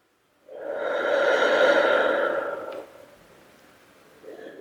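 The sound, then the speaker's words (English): A deep breath drawn in and let out, one long, loud, breathy rush that tapers into quieter airflow, with a brief soft puff of breath at the very end. “Again, with a deep breath in. And a deep breath out.”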